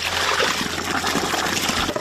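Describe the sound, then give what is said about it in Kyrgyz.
Water trickling and sloshing as a young woman from Koshkol hauls her daily supply of water in buckets, a steady, fairly loud wash of liquid noise with no talk. “Кошкөлү келин ушинтип сууну күнүгө чакалап ташып келет.”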